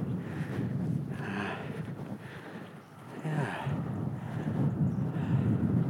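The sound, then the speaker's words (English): Wind gusting across an exposed clifftop path on the Glamorgan coast, near ruined medieval grange buildings; a continuous rough, low rumble buffets the microphone, easing briefly midway before picking up again, with no voices. “Windy here.”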